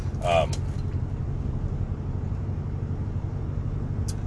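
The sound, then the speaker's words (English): Low, steady rumble of a car driving, with engine and road noise holding constant from start to finish. “Now I'm just driving for the sake of driving because I have some content to talk about.”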